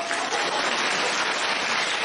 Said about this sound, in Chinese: 鼓掌。